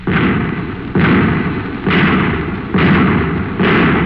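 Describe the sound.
Anti-tank shells fire in five heavy, evenly spaced booms, each blast starting sharply and rumbling on until the next one lands.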